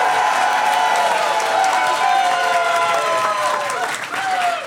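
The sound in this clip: Audience applause and cheering at a live comedy show in Portland, greeting the show's producer with steady dense clapping mixed with whooping voices.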